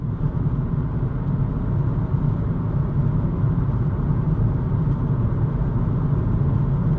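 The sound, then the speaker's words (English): Steady tire roar fills a car cabin on Dunlop tires while driving a busy, well-used stretch of the 405 highway. The low rumbling drone is even and unbroken throughout, with no voices. “recording from the Dunlops onto my phone as I was going down 405 on kind of a well-used part of the highway, so it's a little bit noisier part”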